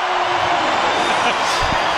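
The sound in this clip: A rugby stadium crowd in full voice during an Italy match while an injured player is treated, a broad sustained roar of cheering that holds at a fairly even level.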